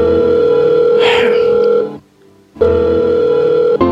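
An outgoing phone call rings through as a buzzing tone held for about two seconds, breaks off briefly, then sounds again.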